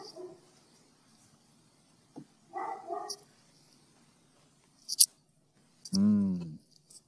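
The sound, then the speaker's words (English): A dog barks in short, separate bursts, a few in all, spread out with quiet gaps between them. The last bark is longer and more tonal than the others. “Well, that's a dog. It is a dog. I don't know what he's barking at”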